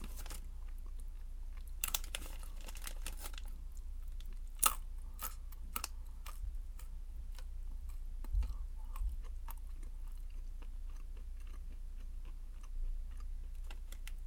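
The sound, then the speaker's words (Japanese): Nuts being eaten, heard as quiet, irregular crunching and chewing with a few sharper cracks among softer clicks and no voices. “ナッツ美味しい。”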